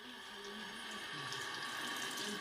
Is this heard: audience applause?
no